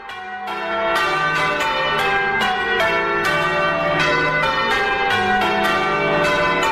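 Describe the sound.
Church bells peal in a steady, rapid series of strikes. Their ringing tones overlap into a continuous, loud clangour with no voices.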